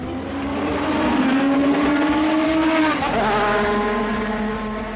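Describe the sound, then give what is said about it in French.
A Formula 1 single-seater's engine screams loudly on the Monaco street circuit, descending past the casino toward a double hairpin. Its pitch climbs steadily for a few seconds, then drops sharply and holds lower. “Après être passé devant le casino de Monte-Carlo, les monoplaces plongent dans un double lacet.”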